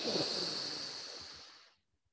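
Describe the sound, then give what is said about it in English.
A quick breath in, a soft breathy hiss lasting under two seconds that gradually tapers off and then gives way to silence. “Once more, breathe in quickly.”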